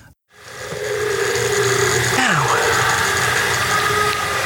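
Car engine running while driving: a steady, loud, broad rumble throughout, with a brief whine that falls in pitch partway through.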